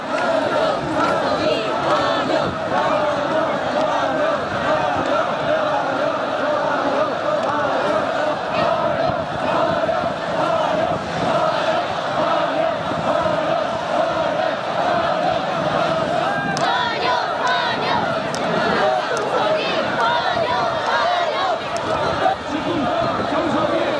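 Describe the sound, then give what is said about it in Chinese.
Crowds in ethnic dress cheer and shout along the road as Xi Jinping's motorcade passes, a continuous loud roar of voices that barely varies across the whole stretch. “沿途站满身着民族盛装的热情民众，热烈欢迎习近平的车队经过。”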